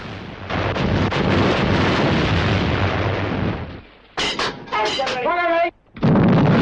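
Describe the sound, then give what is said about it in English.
Chinese gun batteries shelling the ship Amethyst. Sustained heavy roaring blasts are followed by a few high wavering whistles, then another loud burst of fire. “A Chinese soldier looks through his binoculars, then says something to a soldier holding a radio telephone, who relays orders to the gunners above them. The Amethyst comes under a fresh onslaught.”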